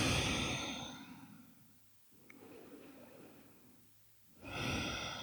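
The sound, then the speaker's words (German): Slow, deep breathing in and out during a guided relaxation exercise: a long, airy breath fades into a quiet pause, then a second full, loud breath rises near the end, with no talking. “Tief ein- und ausatmen.”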